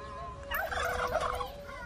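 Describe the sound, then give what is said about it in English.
A free-range turkey gobbles once, a rapid burbling warble that swells up briefly in the middle over a quiet, steady background. “Oh, honey, can't you hit him with a stick? Hit him with a stick. I don't want to come all the way upstate and not go back home with a free-range turkey.”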